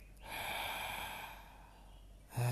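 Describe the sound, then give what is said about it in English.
A slow, deep inhale is drawn into the belly during a guided breathing exercise. It is a long, soft, airy rush that swells early and then gradually thins out, ending in a sudden low tone. “So take a nice deep inhale. Close your eyes. Take a nice deep inhale into the belly.”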